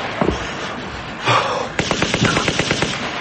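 Gunfire with real bullets in a film scene: a couple of isolated shots, then a rapid, sustained string of many sharp cracks in quick rhythm, loud over a steady noisy background.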